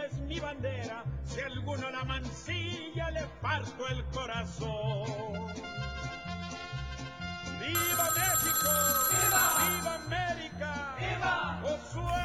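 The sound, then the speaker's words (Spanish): A telephone ringing in a Mexican family home during festive cooking, a bright, bell-like trill entering over steady background music and lasting about two seconds before fading back under the music. “Doña Esther recibe una llamada”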